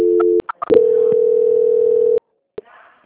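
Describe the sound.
Telephone line tones play while a call is transferred: a steady electronic tone, a few sharp clicks, then a longer single-pitched tone that stops, followed by another click.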